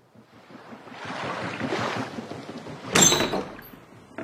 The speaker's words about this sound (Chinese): 通往甲板的旋转门打开了，范索普先生走了进来